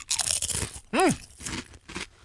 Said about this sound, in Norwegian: blir litt varm i hjertet når jeg vet at jeg nå skal ta en paprikachip i kjeften.